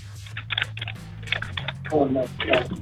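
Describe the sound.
Fast typing of an email on a computer keyboard, many quick clustered key clicks in uneven bursts, with people talking over it.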